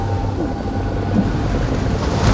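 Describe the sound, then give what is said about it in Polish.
Rough sea water churns as the returning waves of the sea close over chariots and horsemen. A steady, low, broad roar of surging water holds at an even level throughout, with no distinct single crashes and no voices. “Powracające fale zatopiły rydwany i jeźdźców całego wojska Faraona, którzy weszli w morze, ścigając tamtych.”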